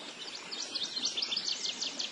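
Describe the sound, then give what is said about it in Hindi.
Birds chirping amid a scenic landscape of rivers and plains, a faint, busy chorus of many quick, high-pitched tweets overlapping continuously. “इस सुरम्य वातावरण को और भी संगीतमय बना देता है पक्षियों का कलरव।”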